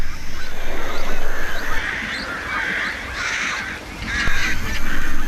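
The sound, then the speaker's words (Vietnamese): Harsh, raspy begging squawks from chicks pressing at a mother bird's throat pouch for food, in several noisy, overlapping bursts that keep up almost without pause. “Chúng muốn ăn thêm nữa. Chim mẹ bị đàn chim con đòi ăn quấy rầy.”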